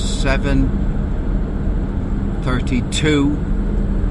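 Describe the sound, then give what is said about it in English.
Steady road rumble from inside a car driving out to a golf club. A constant low drone runs throughout while a man talks over it. “I'm driving out to Cove Golf Club in order to play a round of golf with one person I've never played with before.”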